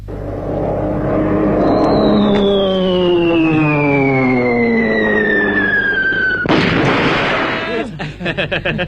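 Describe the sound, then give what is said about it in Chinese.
A performer's voice imitates a wartime warplane dropping a bomb: a long whistling tone glides steadily downward, then bursts into a loud, noisy explosion, followed by a few quick pops. “到底是日本鬼子飞机啊，啊，是着实厉害，这炸弹是成千上万的往下扔。”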